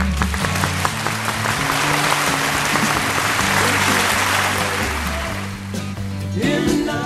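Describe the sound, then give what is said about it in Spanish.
Steady applause fills the whole stretch as a dense, even wash of clapping, with low sustained tones running underneath and no voices. “El aplauso del día. Me parece muy bien. Venga, para Extremadura y para Madrid.”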